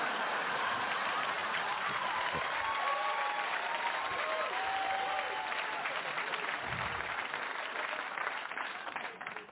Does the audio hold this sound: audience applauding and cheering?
yes